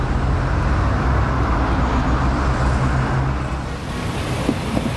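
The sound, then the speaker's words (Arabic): Steady road traffic noise from a traffic jam, a dense, continuous rumble and hiss of vehicles holding at a fairly even loudness throughout, with no voices. “في زحمة بالطريق”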